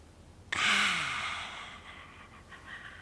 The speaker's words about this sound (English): So we can do the three deep breaths.